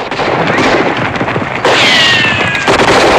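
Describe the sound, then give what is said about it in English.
Gunfire from a posse shooting into a crowd of men and horses forms a loud, dense crackle of shots, with a thin whistling tone sweeping through partway. “As the posse arrive, they fire into the crowd of men and horses, causing disarray amongst them.”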